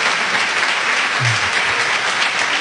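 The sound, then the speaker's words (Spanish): Applause from a radio programme audience: dense, steady clapping that holds at an even level for nearly three seconds, with no voices over it. “acabas de arrancar el aplauso de un programa de radio”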